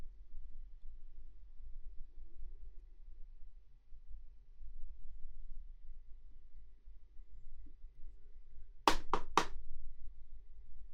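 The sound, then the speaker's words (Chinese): Three quick, sharp knocks on a door, loud and evenly spaced, breaking a long stretch of faint low hum. “有人敲门，应该是主人来了，我去看看。”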